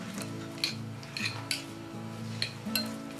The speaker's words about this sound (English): Soften it with a fork